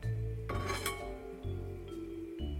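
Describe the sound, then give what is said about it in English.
Toasted garlic and pecans are moved from an oily pan into a bowl, with bright clinks of metal on glass, a few sharper knocks and continuous scraping and rubbing, with no talk. “So I'm just going to transfer them to my bowl.”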